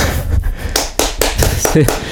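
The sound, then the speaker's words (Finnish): Brief, polite academic applause: a few sparse, separate hand claps land at a loose, uneven rhythm while someone keeps talking over them. “Siinä tästä tuli akateemiset aplodit.”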